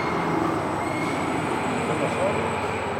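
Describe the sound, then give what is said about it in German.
An overhead crane arriving above a slag bunker at a boiler plant makes a continuous rolling, rumbling mechanical noise with a faint high whine running steadily throughout. “Da sehen Sie auch unseren Kran, der kommt hier gerade an.”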